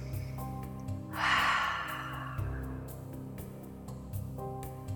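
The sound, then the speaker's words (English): One deep breath drawn in as a soft, airy rush lasting under a second, set against quiet sustained music and a few soft ticks that continue throughout. “Deep breath.”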